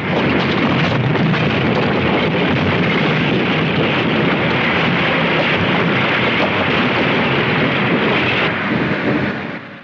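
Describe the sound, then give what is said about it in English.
Huge boulders crumble off a cliff and crash down onto a factory below in a loud, sustained rumbling roar that holds steady and then fades away at the end. “the rock starts to teeter over the cliff. It crumbles, and huge boulders rain down on the factory below.”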